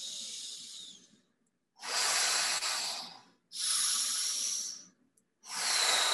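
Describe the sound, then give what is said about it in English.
Deep breaths in a breathing exercise, each a long, airy, hissing rush of air separated by brief silences, steady and fairly soft, repeating in slow rhythm. “So, focus the attention on the bottom. Here we go, 5 breaths.”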